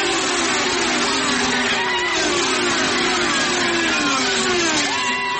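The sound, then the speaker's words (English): Race car engines revving at an auto race at Watkins Glen International in New York, a continuous loud mechanical roar whose pitch shifts and climbs as the cars accelerate, heard alone without talk. “Despite the cancellation of Indy and NASCAR auto races, one did take place at Watkins Glen International in New York.”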